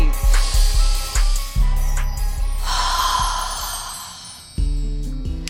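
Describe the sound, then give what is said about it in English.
A deep breath drawn in through the nose and exhaled through the mouth, heard as airy rushing breath sounds that swell and fade over several seconds, with no talk over them. “Let's take a deep breath here through the nose, exhale through the mouth on three.”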